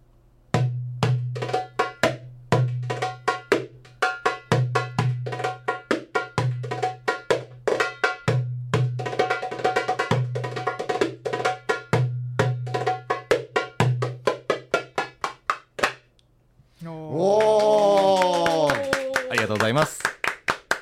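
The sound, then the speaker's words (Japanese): A darbuka, an Arabic goblet drum, is played live in a studio. Fast, steady patterns mix deep resonant strokes with sharp, bright slaps and quick rolls. The drumming stops near the end and voices talk. “ちょっとこれダラブッカの音を実際にちょっと聞かせてもらいたいと思うんですけど”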